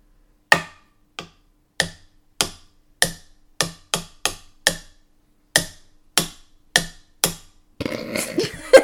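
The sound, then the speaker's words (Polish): A pencil taps out the rhythm of the Polish song 'Sto lat' in 13 sharp, dry knocks with uneven spacing. A burst of rustling handling noise follows the taps. “Żeby było słychać, też potem w mikrofonie będę stukać. To masz tu ołówek. Ołówkiem.”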